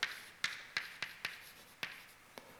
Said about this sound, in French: Je vais écrire la structure des termes dangereux.